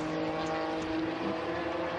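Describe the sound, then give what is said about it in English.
A small Lotus Elite racing car is driven hard in a sports car race, giving a fairly faint, steady droning engine note that holds an even pitch throughout. “There's Robin Ellis in the little Lotus Elite. He really makes that car go quickly.”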